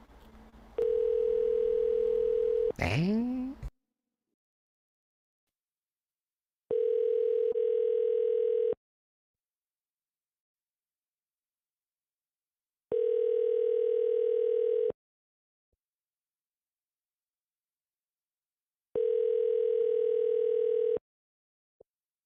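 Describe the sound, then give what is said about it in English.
Ringback tone of a phone call placed from a private number: four long, steady, mid-pitched tone bursts separated by silences, the first ending in a short rising chirp. “He already blocked the number. One try on private, and then move on.”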